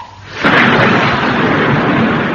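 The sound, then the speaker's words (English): A thunderstorm bursts into a loud crash of thunder after a brief quiet start, then rolls on as a sustained roaring rumble to the end. “At that moment, the storm burst.”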